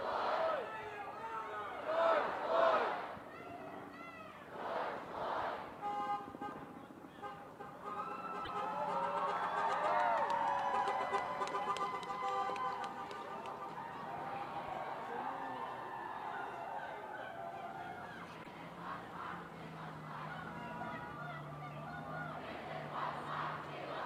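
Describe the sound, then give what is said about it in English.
Shouting from a crowd at a street protest that is meant to stay peaceful: loud individual calls at the start, then overlapping yells merge into a sustained, fairly steady roar of voices. “the organizers of this protest are intending this to be a peaceful protest. They are planning on getting out of here at 5:30 and dispersing peacefully.”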